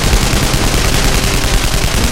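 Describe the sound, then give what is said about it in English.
Rapid, continuous gunfire comes from a vessel's deck gun, a dense unbroken stream of pounding reports that stays loud and steady with no pauses. “He started pumping the deck gun, the pounding of it something he could feel.”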